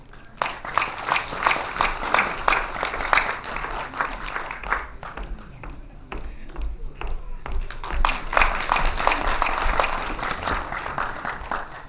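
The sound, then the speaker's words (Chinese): Warm applause greeting a teacher of danxian folk singing at a lecture, many hands clapping densely for about twelve seconds, easing briefly near the middle before swelling again. “下面用热烈的掌声有请我们刘老师。”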